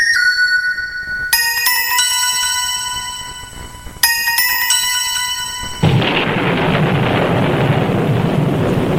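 Bright, bell-like chimes ring out in two clusters of sustained tones, then a sudden thunderclap breaks in and gives way to a steady, loud hiss of falling rain.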